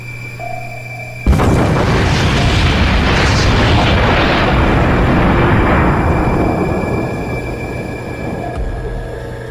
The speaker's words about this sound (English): That explosion has our ears ringing.